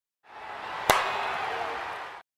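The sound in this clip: A high five hand slap lands as one sharp, crisp smack in the middle of a faint, steady hiss.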